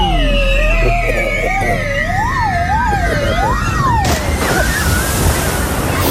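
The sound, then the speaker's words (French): A plunge into a pool at the end of a water slide makes a broad, rushing splash that bursts in late. Before it comes a loud wavering, siren-like tone. “Vous remontez de ce magnifique plongeon suite au toboggan.”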